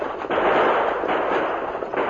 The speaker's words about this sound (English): the stagecoach bounced and swayed over the rough trail, spoiling their aim as the four men fired at the oncoming riders.